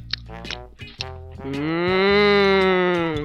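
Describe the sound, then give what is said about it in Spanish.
A grazing cow moos in one long, loud, deep call that swells and holds steady with rich harmonics, following a few shorter, rougher sounds at the start. “El ratón, cada vez más impaciente, fue donde la vaca, que andaba pastando hierba.”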